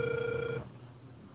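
A telephone ringback tone plays while a call is being dialed: one steady, even tone lasting about half a second, then quiet line hiss.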